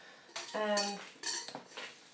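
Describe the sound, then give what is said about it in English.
Butter being placed into a saucepan over a hot cooker ring, heard as metallic clanks and scrapes of the pan and utensils, including a brief ringing pan tone among a few knocks. “So we're placing the butter into a saucepan over a hot”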